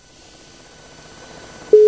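A loud, steady telephone line tone, the busy signal after a caller hung up, cuts in abruptly near the end and holds at one pitch after faint low hiss.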